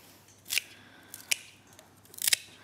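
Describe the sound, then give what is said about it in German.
Vine pruning shears snip through leafless, bamboo-like plant stems being cut to shape for a bouquet frame, giving a few crisp, bright cuts separated by short pauses, the last a quick cluster of snips. “Und dann kann man ihn mit der Rebschere ganz normal zur Form schneiden, so wie man das braucht.”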